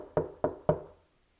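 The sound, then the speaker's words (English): Knocking on a door: three firm, evenly spaced knocks, each with a short decay, followed by silence. “Peter headed straight to the house where they were having the all-night prayer vigil for his self-safety, for his well-being. And knocks on the door.”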